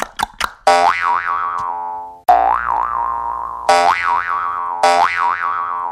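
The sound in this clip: Cartoon boing sound effect for hopping: four springy, twanging boings with a wobbling, bouncing pitch, each ringing out before the next, preceded by a few sharp clicks.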